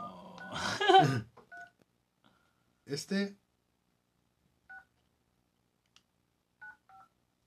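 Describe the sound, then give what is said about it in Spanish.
Telephone keypad tones beep as someone dials an international number. A few brief dual-tone beeps sound at irregular intervals between short bursts of talk, with silence between them. “Estamos llamando a Casa México.”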